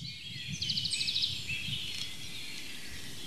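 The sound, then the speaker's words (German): Songbirds singing faintly: a short rapid trill of repeated notes stands out, with a few other quiet chirps over a soft rustling background. “verschiedenste Arten von Singvögeln, haben Melodien, die sie vortragen. Sehr abwechslungsreich und auf sehr unterschiedliche Art und Weise begleiten uns die ganze Zeit, seitdem wir hier unterwegs sind.”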